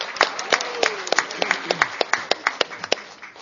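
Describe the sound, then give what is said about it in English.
Scattered clapping from a convention audience, a small number of hands striking many separate sharp claps in an uneven rhythm over a soft wash of sound. “Even if she's not, let's give Jill McConnell a hand.”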